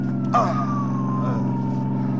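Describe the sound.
An ambulance siren wails as a sustained tone that glides slowly downward in pitch. It is mixed with a low, steady vehicle engine rumble and has a brief sharper burst near the start.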